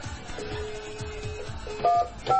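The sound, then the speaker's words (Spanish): Telephone dialing to place a call: a steady electronic tone followed by two short, bright keypad beeps near the end, quiet under a low background hum. “Vamos a llamar, dale, a ver.”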